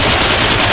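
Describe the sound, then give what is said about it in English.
Gunshot sound effects end a novelty record: a loud, unbroken burst of rapid automatic gunfire, a dense crackling rattle that fills the whole short moment without a pause. “And then let's insert some gunshot sounds and end the record right there.”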